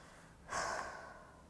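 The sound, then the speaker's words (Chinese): A deep breath drawn through a nose badly congested by a severe allergy: a single soft, airy rush that swells suddenly and then slowly trails away, quiet and alone. “哦，不好意思，我在深呼吸，因为我现在鼻子过敏，超级严重的。”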